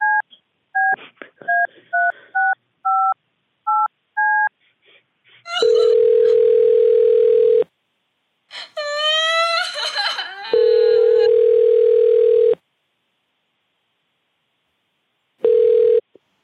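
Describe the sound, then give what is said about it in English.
A telephone is dialed with a rapid run of paired keypad beeps, followed by long, steady, mid-pitched line tones broken by pauses and an irregular burst of other sound. “I'm going to get the driver on the phone right now, and I'm gonna get this taken care of right away.”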